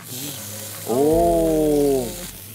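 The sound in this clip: Meat sizzles in a pan beside onions pushed to one side, a steady high hiss running throughout, while a drawn-out, voice-like tone swells over it in the middle before fading.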